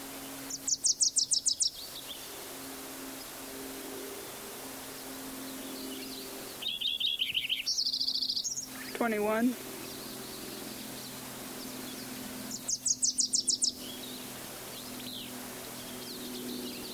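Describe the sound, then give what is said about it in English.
Wilson's warbler song: a few quick bursts of rapid, high chattering notes, spaced apart over a steady low hum. “Wilson's warbler at the end.”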